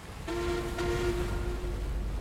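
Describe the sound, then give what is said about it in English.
A navy warship's whistle sounds to signal a sharp turn at sea, with a squadron following. It is a deep, steady tonal blast with a renewed burst shortly after it starts, held for about a second and a half without voices. “USS Delphi sounded two blasts on her whistle to signal the turn, then gracefully arced left.”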